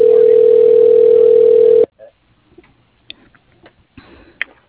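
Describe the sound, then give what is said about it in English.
A steady, loud telephone dial tone holds for about two seconds, then cuts off as an extension is dialed. A few faint, scattered clicks and ticks follow. “press #. Dialing.”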